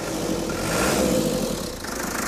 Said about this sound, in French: je suis sûr qu'il démarrera du premier coup. Il y a quelques boutons en plus, un coup de démarreur.